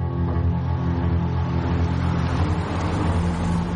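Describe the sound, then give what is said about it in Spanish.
A car drives along a city street at night, producing a low, even engine hum that stays constant throughout with no talking. “De noche, en la calle, Jesse avanza con su coche.”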